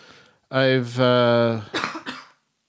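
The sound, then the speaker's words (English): A few rough, breathy coughs from someone with allergies, following a longer voiced throat sound, moderately loud with short gaps between bursts. “I don't have the coronavirus. I have allergies. You're fine. I mean, I guess I could have it. We all have it. I think this cough that I have is old enough that like,”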